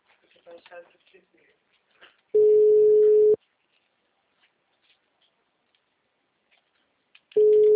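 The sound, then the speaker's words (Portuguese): Telephone busy signal after a dropped call: a steady, loud mid-pitched tone in two separate bursts, the second cut off at the end, with silence between. “Oi, a ligação caiu, meu bem.”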